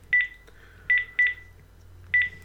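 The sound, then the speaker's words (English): Four short keypad beeps sound as a phone number is entered on an iPhone. The tones are clear and unevenly spaced over a quiet background. “So if I ring my iPhone stroke watch again, so I'm putting my number again,”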